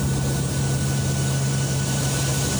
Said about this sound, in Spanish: El avión cazahuracanes Miss Piggy de la Administración Nacional Oceánica y Atmosférica de Estados Unidos entró al ojo del huracán